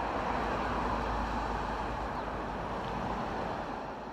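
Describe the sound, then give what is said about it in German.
Bumper-to-bumper rush-hour traffic on a four-lane road in Los Angeles forms a steady, low, faint rumble with no distinct events. “Feierabendverkehr in Los Angeles. Stoßstange an Stoßstange stehen wir auf einer vierspurigen Straße vor einem traumhaften Sonnenuntergang.”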